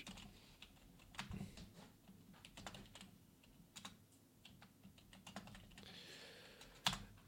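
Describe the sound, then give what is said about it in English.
Quiet typing on a computer keyboard: many soft key clicks in irregular bursts with no voices, and one sharper click near the end. “I can't really talk and type at the same time.”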